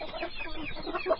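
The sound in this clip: Chickens clucking in a rural Colombian setting, a brief run of soft, murmuring clucks with a slightly sharper call near the end, fairly quiet throughout.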